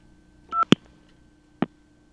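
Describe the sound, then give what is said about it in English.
Telephone dialing through a Kellogg step switch on an old exchange: a brief tone, then two sharp, faint clicks spaced about a second apart in otherwise near silence. “Now, I'm going to dial 682, and that's going to cut me into a Kellogg step switch. Hear it dialing?”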